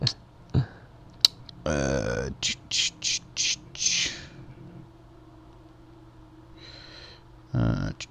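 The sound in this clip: Typing on a keyboard: short bursts of quick, crisp key clicks between stretches of people talking.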